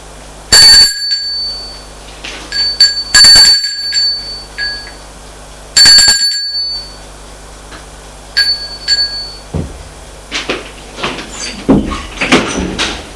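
A doorbell rings at a door, sounding three loud, bright, ringing chimes a few seconds apart, followed by fainter scattered clicks and knocks.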